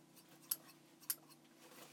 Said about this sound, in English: Are those scissors? What are you going to do? Did you just cut my panties?